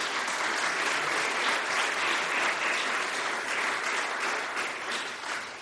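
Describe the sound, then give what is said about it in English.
An audience at an academic conference applauds, with many hands clapping in a dense, steady, loud wash that tapers slightly near the end. “Give them a hand, if you will.”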